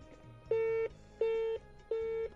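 A busy tone after a phone line cuts off: three even, faint electronic beeps, each about a third of a second long, separated by short regular gaps.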